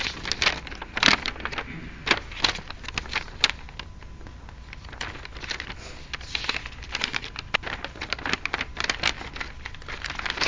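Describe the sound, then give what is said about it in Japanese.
Paper is pulled out and rustled, giving irregular crisp crinkling bursts at low volume throughout, with no voices. “そしてちょっとすいません、紙が出てきます。”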